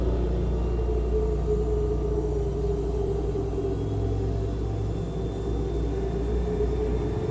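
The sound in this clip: Airplane cabin rumble in flight, a loud, constant low drone with broad noise above it, steady and unbroken throughout.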